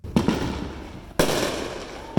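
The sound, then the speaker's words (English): Illegal fireworks going off in backyards: a few sharp, loud bangs, each followed by a sustained crackling, hissing rumble that slowly fades before the next burst. “This is the scene that the city of Oceanside is hoping to stop. Illegal fireworks lighting up in people's backyards and causing a nuisance.”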